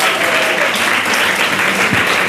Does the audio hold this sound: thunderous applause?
yes